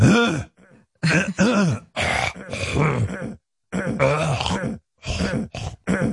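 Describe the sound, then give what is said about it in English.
A man's voice imitates another man clearing his throat, making many gruff, groaning rasps and grunts in rapid, uneven bursts that are loud and close together. “I'd hear Gary practicing talking and clearing his throat before he comes into the studio.”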